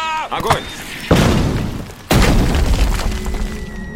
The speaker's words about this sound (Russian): Огонь! Выстрел!